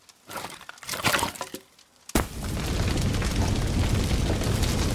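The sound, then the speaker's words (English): A stick of wood lands on a fire with a sharp thump after some quieter handling sounds, followed by a steady, loud, dense crackling and roaring of the burning fire. “Would you mind putting another stick on the fire?”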